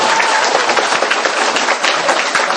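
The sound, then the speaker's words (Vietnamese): Audience applause after a host on stage asks the crowd to clap, a loud, dense and steady wash of many hands clapping that lasts the whole moment. “Phải không quý vị? Vỗ tay đi.”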